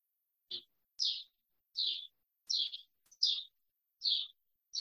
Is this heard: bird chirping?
yes